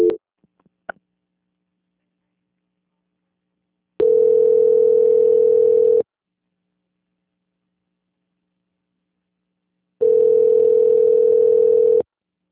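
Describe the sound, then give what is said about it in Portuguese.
A telephone tone while a call is being transferred: two long, steady hum-like beeps of about two seconds each, with silence between them and a few brief clicks at the start. “A ligação fica da programação, eu peço que não desligue o contato, tá bom? Tá bom. Obrigada, tenha uma boa tarde. Boa tarde. Transferência.”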